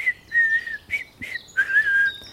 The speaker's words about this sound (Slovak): Zajačik si vykračoval po lese v dobrej nálade a pískal si.